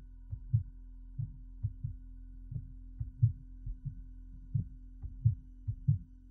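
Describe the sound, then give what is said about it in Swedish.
Heartbeat thumps as many soft, low, dull beats, some paired, pulsing over a constant faint hum with no other sounds. “Du känner pulsen ökar.”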